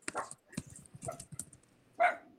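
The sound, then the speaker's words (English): Dogs barking out a window: a few short, scattered barks and yips at moderate loudness, ending in one louder, sharper bark. “Sorry about that. They're barking out the window.”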